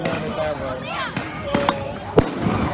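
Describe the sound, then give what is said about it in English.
Flashbang grenades explode during night-time street protests, a few sharp bangs sounding over a continuous din, the loudest near the end, with voices heard underneath. “Listening to these flashbang grenades, it hurts our ears.”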